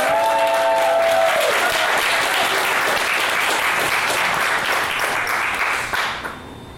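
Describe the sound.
Dense, steady applause from an audience welcoming a speaker, loud and sustained for several seconds before tapering off near the end, with a brief voice audible at the very start.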